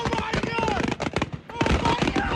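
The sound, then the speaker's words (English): Accidental fireworks going off on a barge where they had been loaded for a 4th of July celebration in Sullivan County, Tennessee: dense, loud crackling and popping bursts that run on without pause, with people's voices mixed in. “fireworks loaded onto a barge went off accidentally”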